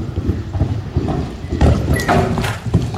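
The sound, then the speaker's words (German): Horse hooves at a show jumping event, with uneven clip-clop thuds and scuffing that grow into heavier, louder bursts partway through. “Das muss Reiten sein. So, also ihr guckt mich beide fragend an. Es ist Springreiten.”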